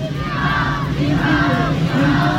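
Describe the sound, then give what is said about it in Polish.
A crowd in a historical procession cheers and shouts through the streets of Nowy Sącz, a dense, continuous mass of voices with rising and falling calls layered over one another for the whole stretch. “Ulicami Nowego Sącza przeszedł orszak Długosza. Wiwat Jan Długosz!”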